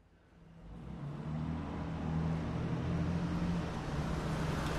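A car is driven away, its low engine rumble swelling over the first second or so and then holding a steady, fairly faint drone.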